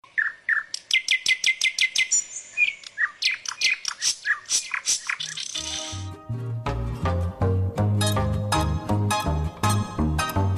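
Mockingbird song of rapid, bright, repeated chirps in shifting phrases rings out loud and alone for about five seconds, then music enters beneath while high calls continue faintly on top.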